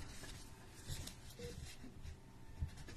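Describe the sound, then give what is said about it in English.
Pen scratching across paper as notes are written in a hospital setting, a soft, steady scritching texture with small bumps of emphasis, continuous and fairly quiet throughout. “Just going to make a few notes regarding”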